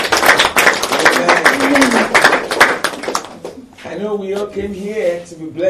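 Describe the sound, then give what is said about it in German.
Congregation clapping for Jesus at a church service: steady, dense claps run beneath a loud voice for about three and a half seconds, then give way to singing or speech. “If you believe, put your hands Wenn du das glaubst, dann klatsch für Jesus.”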